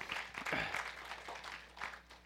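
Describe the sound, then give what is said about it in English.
A church audience gives a round of applause during a morning sermon. The clapping is faint and scattered, rising and falling in uneven bursts. “Give yourselves a hand. That's a good looking crowd this morning.”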